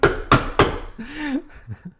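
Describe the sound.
Bongos struck three times to mimic knocking on a door, loud evenly spaced thumps, followed by a brief voice.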